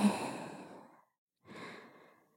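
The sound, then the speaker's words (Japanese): Slow, deep breaths during a guided breathing exercise: two long, airy breaths separated by a short silent pause. The first is fuller and fades gradually, and the second is somewhat softer, with no talking. “ゆっくり息を吸って吐いて、”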